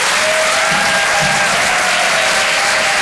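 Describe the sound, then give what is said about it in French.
An audience at a Paris comedy club applauds as a comedian is called to the stage. The clapping is loud and steady, with a continuous roar of hands for about three seconds. “Je vous demande de faire un maximum de bruit, s'il vous plaît, pour Vincent Cerussi.”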